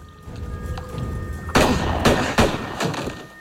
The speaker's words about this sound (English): Riddled with bullets, Lucas slumps to the floor.